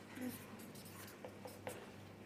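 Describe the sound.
Writing by hand: faint, soft scratching strokes with a few short, sharper scrapes as the pen moves, quiet and intermittent over a low background hum.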